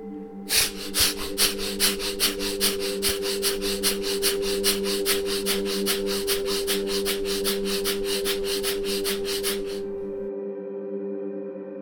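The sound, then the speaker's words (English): Rapid, forceful breathing exercise of deep, fast breaths taken without pause: many quick, evenly spaced huffs in a steady rhythm over a sustained tonal drone. The breathing stops shortly before the end while the drone carries on. “Now, start taking deep and fast breaths. Like this.”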